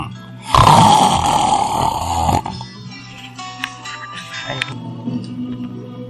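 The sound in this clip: A drunk man snores while sprawled asleep on a large chair: one long, loud, rasping snore with a rough rattling tone, followed by quieter breathing and faint rumbles.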